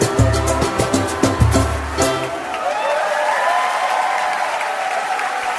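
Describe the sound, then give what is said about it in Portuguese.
An audience applauds a performer as a lively song ends. The music gives way to dense, sustained clapping that holds steady to the end. “Palma aí pro cara, gente.”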